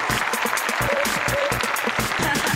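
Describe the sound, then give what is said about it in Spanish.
Applause in a comic-book talk studio, dense clapping with a regular, pulsing rhythm that holds steady at an even loudness. “Yo voy así, aplausos. Así aplausos.”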